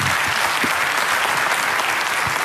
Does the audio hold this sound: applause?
yes